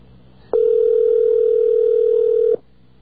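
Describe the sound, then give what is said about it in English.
Telephone ringing tone on a long-distance call line: a single steady, mid-pitched electronic tone that holds for about two seconds and then stops, with nothing else around it. “The ring sounds like ours, doesn't it?”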